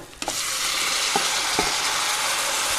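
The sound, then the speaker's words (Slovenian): Meat sizzles loudly in a pan with browned onion as goulash is being cooked, a steady, dense frying hiss broken by a few faint clinks of stirring. “Čebula je že čudovito rjavkasta. Zdaj je torej čas, da dam meso spet not.”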